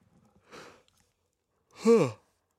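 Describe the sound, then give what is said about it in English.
A person yawns: a faint breathy intake, then a louder, drawn-out voiced yawn whose tone bends and trails away. “Wow, that yawn has been coming on for a while. Sorry, that just totally interrupted the show.”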